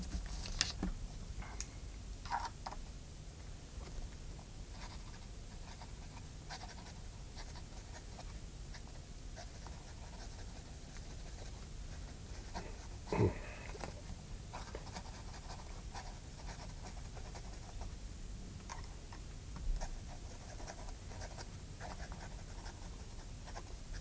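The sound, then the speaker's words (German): A final letter is written by hand in a prison cell, a pen scratching faintly and continuously on paper with occasional small taps, and no voices. “Und den letzten Brief? Schreiben Sie noch hier.”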